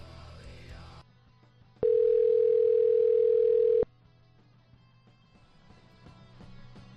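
Ringback tone of a telephone while a call is being placed. A single loud, steady mid-pitched beep lasts about two seconds, with quiet line noise before and after.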